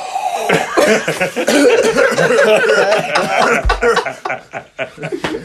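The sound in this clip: Coughing mixed with snickering, chuckling laughter, a loud and nearly continuous run of rough voiced bursts that thins into a few separate short bursts near the end.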